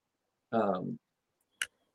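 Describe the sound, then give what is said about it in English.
A puzzle piece clicks into place with one short, sharp click that comes just after a brief vocal sound, otherwise in near silence. “When you put a piece in place, it goes click.”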